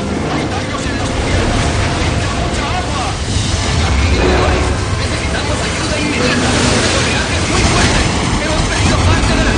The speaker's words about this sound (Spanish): Mientras, en otro lugar, dos gigantescos cargueros son vapuleados por la tormenta. Uno de ellos, cargado de contenedores, pierde parte de la carga.